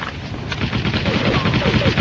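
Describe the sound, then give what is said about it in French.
Rifle gunshots strike the player from behind in a first-person shooter video game, a dense run of sharp, loud cracks and bursts that stays steady across the whole stretch. “Les taches de sang devant ma vision, c'est les coups de fusil que je prends dans le dos, visiblement.”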